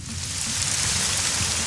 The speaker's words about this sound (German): Der Regen. So ein schöner Sommerregen. Der kühlt doch direkt ab.